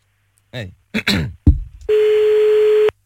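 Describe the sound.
A steady electronic telephone ring tone as a call is placed, one sustained beep about a second long, coming right after a few brief bursts of a voice.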